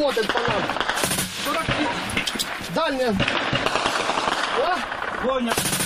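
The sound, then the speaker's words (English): Rapid automatic gunfire from Donbas Battalion soldiers shooting at Russian-backed separatists, dense continuous bursts with voices shouting over the shooting. “The soldiers from Battalion Donbas Ukraine respond quickly, shelling the enemy with a portion of lead. However, Russian-backed separatists are too active to get frightened by some shooting arms.”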